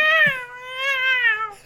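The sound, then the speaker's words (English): A cat in heat yowls in one long, loud, wavering cry that holds steady for over a second and then cuts off sharply, with no other sound around it. “Cat in heat.”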